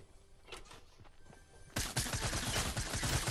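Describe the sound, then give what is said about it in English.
Suppressed gunfire in the video game Fortnite: faint, scattered muffled shots, then a sudden dense volley of rapid shots that continues to the end. “Oh good, I hear a suppressed gun.”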